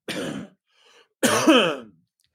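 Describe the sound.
Throat clearing and coughing from a smoker at a Chiapas aid station: two harsh, raspy bursts with a faint rough rasp between them, the second burst longer and more voiced.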